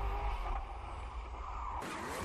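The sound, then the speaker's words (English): Rally car drifting and sliding on barren, rocky ground high above the tree line, heard as a steady low engine drone and rumble that runs throughout without talk. “Another couple of slides. Nice big drifts.”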